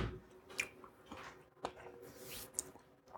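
Chocolate being chewed: quiet, moist mouth sounds with a few soft crunchy, squishy bites spaced irregularly, heard on their own without talk.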